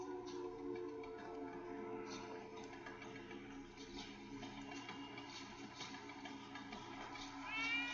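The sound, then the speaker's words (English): Meowing from a cat kept in a giant birdcage in a horror film scene, a few plaintive cries set against a sustained tonal background, fairly faint overall. “So Jeff walks into the Pet Sematary, and he finally does find his cat, because this cat is like, meow, meow.”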